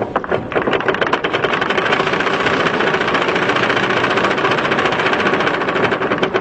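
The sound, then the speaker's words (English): A raffle drum full of lottery tickets spins for a contest draw, making a loud, continuous rattling churn with fast, even ticking, steady for the whole stretch without any talk. “Better spin the raffle drum again.”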